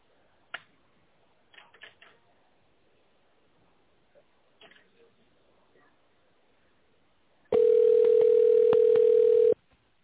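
Telephone line tone while waiting to be connected: a loud, steady single-pitched tone holds for about two seconds after a few faint clicks and soft rustles on an otherwise quiet line.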